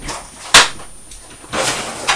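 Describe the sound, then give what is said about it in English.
A freezer door on a fridge-freezer being opened, with a sharp thump followed by softer rustling and a few further knocks. “Just open it now, there seems to be quite a lot of water. Better just check the freezer.”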